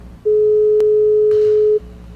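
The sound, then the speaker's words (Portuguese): A steady telephone line tone fills the call-in after the line goes dead, one continuous pure tone lasting about a second and a half, with a brief click near its start and a burst of hiss toward its end. “Não quis falar, o telefone tá mudo? O telefone ficou mudo?”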